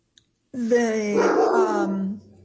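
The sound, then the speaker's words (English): A dog vocalizes during a live show, giving one drawn-out, growly, harmonic cry that holds fairly level for under two seconds before cutting off. “this is a live show and there's a dog trying to get in on our conversation.”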